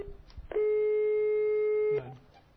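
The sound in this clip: A telephone line tone sounds after a number is dialed: one steady, fairly loud mid-pitched tone holds for about a second and a half, then stops. Faint sounds come before and after it.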